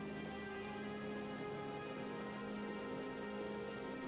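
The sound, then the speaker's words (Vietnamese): Afternoon rain during a funeral, heard as a steady, soft hiss of drops on surfaces over a low hum. It stays quiet and unchanging throughout. “Khung cảnh ảm đạm trong cơn mưa chiều hòa với không khí ngột ngạt của đám tang thật não nề.”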